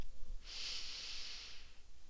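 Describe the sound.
A single slow, deep breath, a soft airy hiss that swells and holds for over a second before fading. It is faint and alone, with no voices.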